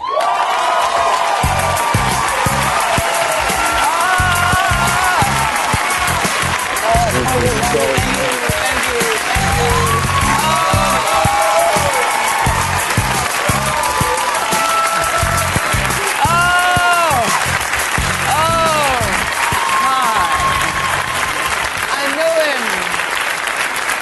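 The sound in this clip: Loud, sustained audience applause and cheering with scattered whoops greets Ruby Dee as she takes the stage at a Def Poetry show, holding steady for the whole stretch.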